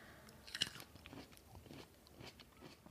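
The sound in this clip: Someone bites into a green seedless grape with a quiet, crisp crunch, followed by soft, wet chewing.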